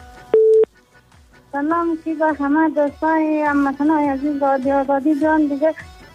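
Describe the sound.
A short, loud, steady telephone line tone sounds after a caller's call-in drops, then a person talks at length.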